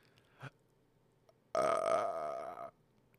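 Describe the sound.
A long, loud, throaty burp rumbles for about a second, coming after a brief, faint sound earlier and fading back to quiet.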